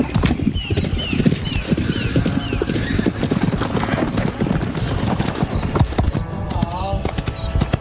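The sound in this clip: Horse hooves clip-clopping during show jumping training: many quick, fairly loud hoofbeats fall in a steady running rhythm throughout.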